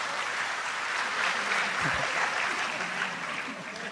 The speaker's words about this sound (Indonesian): Tepuk tangan untuk Gus Kausar gak apa-apa.